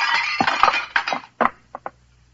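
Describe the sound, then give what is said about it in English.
A statue shatters against a wall in a dense burst of crashing, clinking impacts. Two lighter, separate tinkles follow before the sound fades to quiet. “He ducked, and the statue shattered against the wall.”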